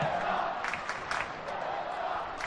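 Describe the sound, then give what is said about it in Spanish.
Football crowd at a Huesca match cheering its team on: a steady, dense roar of many voices, with a voice over it. “Anima el público al Huesca, que lo tiene en su mano el llevarse tres puntos más.”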